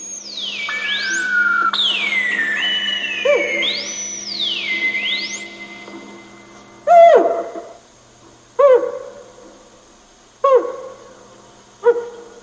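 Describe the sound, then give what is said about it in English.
Synthesized, sped-up, dolphin-like tones make up a brainwashing soundtrack. High sweeping whistles glide up and down over a low hum, then four sharp falling chirps come in separate bursts. “And the brainwashing soundtrack is just like sped up dolphin noises, like put through a synthesizer or something.”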